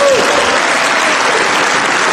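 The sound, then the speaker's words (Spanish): Applause for a French government minister's speech, a dense, steady wash of many hands clapping that stays loud and even from start to finish. “Y era aplaudido cuando suspendía las importaciones de Shane.”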